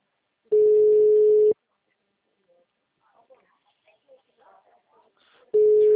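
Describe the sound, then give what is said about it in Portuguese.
A telephone ring tone on a dialed call that is not getting through: two steady one-second tones separated by about four seconds of near silence with faint scattered noises between them. “Vou ligar pra ele.”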